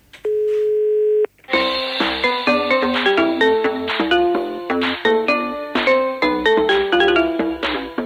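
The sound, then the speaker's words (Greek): A telephone call to an office rings once with a long steady tone, then an answering system picks up with a bright, chiming electronic melody of many quick notes that plays on at an even level. “παίρνει ο Ντράγκη τηλέφωνο εδώ στην Ελλάδα για να θέσει θέμα με τις Δήμητρες και με τις τράπεζες και πέφτει πάνω στον τηλεφωνητή.”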